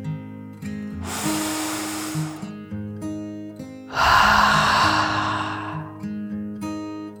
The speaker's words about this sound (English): took another deep dragon breath, in and out.